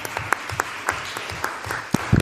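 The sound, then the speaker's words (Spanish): Applause from the audience at a town council session as a councillor is introduced. It comes as a handful of separate, sparse hand claps rather than a dense ovation, with some claps louder than others. “Y un aplauso.”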